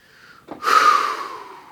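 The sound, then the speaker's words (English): A single deep breath drawn in for dramatic effect: a loud, breathy rush of air about a second long that swells quickly and then slowly fades, with no talk over it. “Yes, I'm taking a deep breath for dramatic effect”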